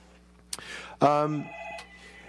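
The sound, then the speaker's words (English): A telephone rings during a live radio talk show, a short bright electronic ring with stacked tones that swells and then holds a steadier single tone before cutting off, over a faint steady hum. “when we're talking, we can't answer the phone because we're talking on the radio. You can just turn down the ringer on that.”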